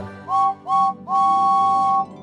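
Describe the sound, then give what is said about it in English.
Steam engine whistle from a red number 5 locomotive: three clear, steady-pitched blasts, two short ones followed by a longer sustained one, loud against a quiet background. “he has a whistle that sounds like this”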